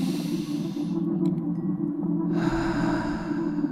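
A deep breath taken during a guided meditation, an airy, breathy rush that comes in partway through over a steady, low droning background, with no voices.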